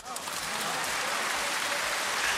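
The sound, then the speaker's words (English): A round of applause plays as a continuous, even hiss of many hands clapping. It stays moderately loud and unchanging throughout, with no distinct individual claps. “Round of applause.”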